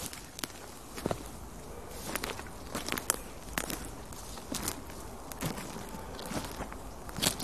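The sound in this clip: Footsteps walk back to a seat, many faint, soft, crunchy steps at an uneven pace with light crackles between them. No one talks.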